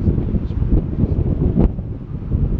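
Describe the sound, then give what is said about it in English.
Strong wind at a cricket ground buffets the microphone in continuous low, rumbling gusts, with a few sharper bursts. “It's a strong wind that might be affecting the bowling. You can see the OCC flag fluttering back and”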